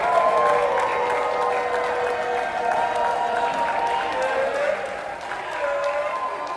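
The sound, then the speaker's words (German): A crowd applauds US D-Day veterans arriving at Paris Charles de Gaulle airport: sustained, even clapping from many hands continues throughout, with voices audible beneath. “Und so klingt es, wenn die noch heute lebenden US-Veteranen des D-Day 80 Jahre danach auf dem Pariser Flughafen Charles de Gaulle ankommen.”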